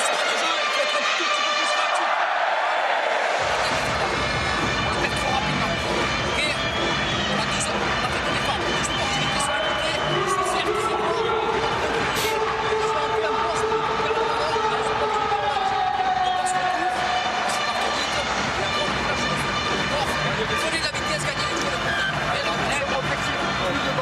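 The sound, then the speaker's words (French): Large stadium crowd of more than 50,000 at a final rugby tournament in Bordeaux, clapping together in a loud, dense, continuous roar that holds steady for the whole stretch. “Donc, le grand clapping, le public venu très nombreux, plus de 50 000 personnes évidemment à Bordeaux. C'est une réussite. Ce grand tournoi final à Bordeaux, capitale mondiale du rugby. On écoute.”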